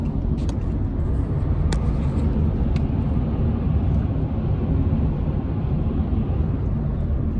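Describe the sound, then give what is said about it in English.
Steady low road rumble and engine drone of a car being driven, heard from inside the vehicle, with a few brief faint clicks early on and no other change in level. “I'm driving.”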